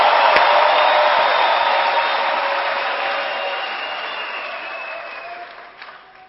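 A church audience applauds in a loud, dense wash of clapping that slowly fades over several seconds.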